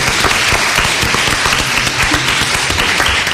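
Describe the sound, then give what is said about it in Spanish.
Dense, steady applause from an audience at the close of a guest segment. Many hands clap in an even, continuous wash at constant loudness throughout, with no voices heard. “aplauso”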